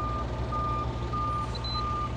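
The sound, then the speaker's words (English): A loud truck's heavy low engine rumble runs throughout, with high electronic reversing beeps sounding above it and no talk. “That's a really loud truck.”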